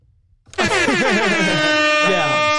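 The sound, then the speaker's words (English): An air horn lets out one loud, sustained blast with a harsh, brassy tone, bursting in after a short quiet moment and holding steady to the end. “I hit you with an air horn because that was awesome.”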